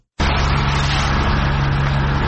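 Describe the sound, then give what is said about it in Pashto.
A municipal vehicle's engine runs while workers clear road barriers in front of the provincial governor's office in Tarinkot. A loud, continuous rumble with a low steady hum starts abruptly and holds level. “دا د ترینکوټ ښاروالۍ موټر او کارکونکي دي چې د طالبانو په غوښتنه د اورزګان ولایت په مرکز ترینکوټ ښار کې د ولایت مقام مخې ته هغه موانع لري کوي”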